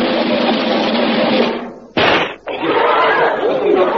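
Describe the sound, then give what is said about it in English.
A single sharp gunshot as a marksman fires at a table tennis ball thrown in the air. The loud bang cuts through continuous dense crowd noise. “Now, for his first trick, the great Alberto will demonstrate his brilliant marksmanship by shooting table tennis balls, which I shall throw high in the air.”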